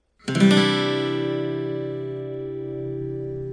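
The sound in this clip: An acoustic guitar strums a single open C add 9 chord. It starts with a bright attack, then rings out and sustains evenly as the upper overtones slowly fade.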